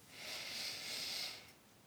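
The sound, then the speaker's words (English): Slow meditation breathing, in through the nose and out through the mouth, makes a soft, airy hiss that swells and eases in two gentle waves, quiet and with no talking. “let's breathe in through our nose and out through our mouth. And we're going to breathe in love.”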